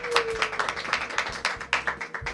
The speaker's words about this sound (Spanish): Empieza hoy el programa de la Asociación Universitaria de Debate de A Coruña, El Orador, hoy en su segunda temporada, así que un aplauso, ¡bien!